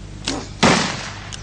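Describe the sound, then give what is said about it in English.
Two rapid gunshots from a quick-drawn gun crack out about a third of a second apart, the first lighter and sharper, the second a louder, fuller blast with a short decaying tail. “He shot two, and it sounded like it was one shot.”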